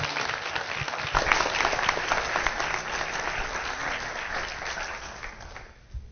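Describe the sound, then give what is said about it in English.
Audience applause welcomes a pastor to the stage: a steady, dense patter of many hands clapping for about six seconds, tapering off near the end. “let's give a warm welcome for Pastor Don Murphy as he comes to minister the word to us.”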